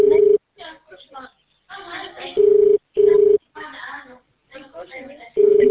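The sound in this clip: Ringback tone of a phone call that goes unanswered: four steady, mid-pitched tone bursts, two of them close together, alternating with stretches of talk.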